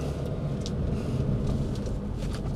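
Inside a moving car, a steady low engine and road rumble hums continuously with an even, unbroken drone.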